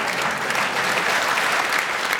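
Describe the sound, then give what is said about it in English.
A studio audience applauds after a challenge in a comedy panel game, producing dense, continuous clapping that stays loud and even for just over two seconds. “The audience are applauding because they enjoyed the challenge”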